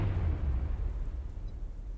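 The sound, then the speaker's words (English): A deep rumbling explosion roar in a fantasy creature-battle adventure, heaviest at the start and slowly fading over about two seconds, with no voices. “A brilliant explosion rocks the SSN and knocks you to the ground.”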